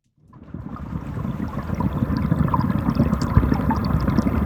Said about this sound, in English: Hear that? Yes, it's the sound of water, but it's not just any water. That's what the Chicago River sounds like.